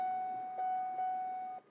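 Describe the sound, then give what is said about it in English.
Seatbelt warning chime in a car being driven: a steady, faint high electronic tone that holds for under two seconds, with a couple of slight pulses, then cuts off. “And that noise you hear is the seatbelt.”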